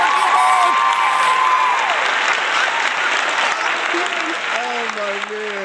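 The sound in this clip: Audience applause welcoming a guest, a dense and steady wash of clapping that holds for the whole stretch, with voices rising over the crowd noise.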